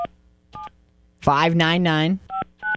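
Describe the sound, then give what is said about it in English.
Telephone keypad tones as a number is dialed: two separate beeps, then a person speaks briefly, then two more beeps in quick succession, all crisp and clear. “Let's call this guy and ask him if he's got any places for rent.”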